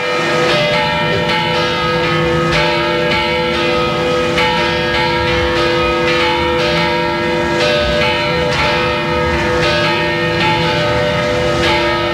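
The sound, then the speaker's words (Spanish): Six church bells, one of them Gothic, ring from a Mudéjar Aragonese tower for Christmas, giving a dense, unbroken peal of repeated strikes over sustained, overlapping ringing tones, loud and steady throughout, with no voices. “Están sonando seis campanas, entre ellas una gótica que es única en la provincia.”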